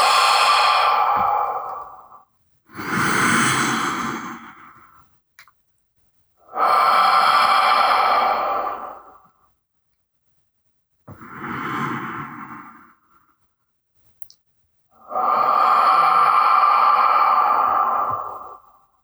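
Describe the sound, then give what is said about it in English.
Slow, deep breathing in through the nose and out through the mouth: five long, airy breaths with short silent pauses between them and no talk. “take some nice deep breaths with you in through the nose and out through the mouth”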